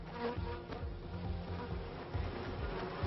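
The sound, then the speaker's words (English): Bees buzzing in a faint, steady, low droning hum with a dense, wavering texture that continues without a break. “The latest scientific research has revealed that in order to produce half a kilo of honey, the bees must visit about 4 million individual flowers.”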